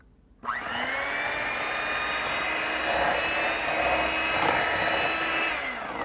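Steady motorized whirring as the wet ingredients of a batter are mixed together, starting abruptly after a brief quiet moment and holding one constant droning pitch for several seconds before easing slightly at the end.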